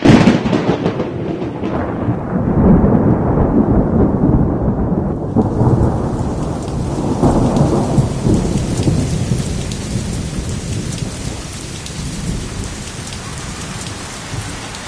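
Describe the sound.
Heavy rain pours down in a steady, dense roar, with deep rolling thunder rumbling through the downpour. The storm stays loud and continuous from start to finish.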